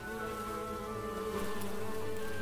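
Stingless Melipona bees buzz at their nest in a continuous, fairly faint droning hum that holds steady throughout without pause.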